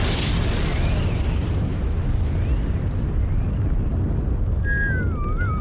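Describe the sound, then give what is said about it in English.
An explosion blast as a place blows up during a spacecraft escape: a loud, sustained roaring rumble with a bright burst at the start, and thin whistling tones entering near the end. “That was a hell of a blast.”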